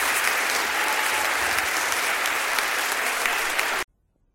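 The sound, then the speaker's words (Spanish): A live concert audience applauds in a thick, sustained roar of clapping that stays level, then cuts off abruptly into silence near the end. “Gracias, hermanos. Gracias por esos aplausos.”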